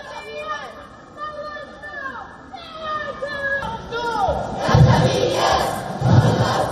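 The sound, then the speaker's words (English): A crowd of Iranian Americans rallying for a free Iran outside the United Nations headquarters in New York, with many voices shouting and chanting together. The din grows louder and denser in the second half. “a large number of Iranian Americans gathered outside the United Nations headquarters in New York and rallied for a free Iran. Do you hear the voices?”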